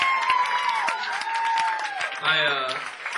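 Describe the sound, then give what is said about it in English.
Audience applause at a live band show, continuous clapping from a crowd with a whistle and a brief shouting voice rising above it. “How about a nice round of applause for the Whisker Men who played before us?”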